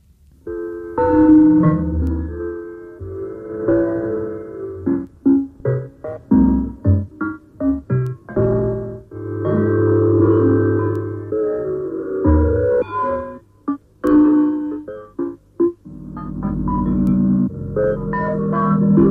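Early experimental electronic music from 1953: synthetic tone mixtures with stacked harmonics, alternating held chords and clipped staccato bursts separated by short gaps. The tones are loud and steady in character, and no voices are heard.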